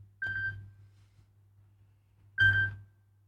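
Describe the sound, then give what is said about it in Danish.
A telephone rings: two short, high electronic chirping bursts about two seconds apart, faint over a low, steady hum. “Det ringer, hør, hvem kan det være?”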